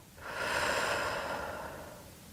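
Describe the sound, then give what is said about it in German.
One long, deep breath during a guided relaxation exercise: soft and airy, swelling quickly and then slowly tapering off, alone without any talk. “Atme einmal tief durch deine Nase ein. Halte für einen Moment. Und atme dann durch deinen Mund aus.”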